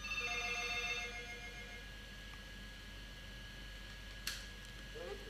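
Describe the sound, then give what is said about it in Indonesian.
A telephone rings with an incoming call: a brief tonal ring sounds in the first second, with a faint repeated tone and low hum after it and a sharp click near the end. “ini ada telepon masuk ya”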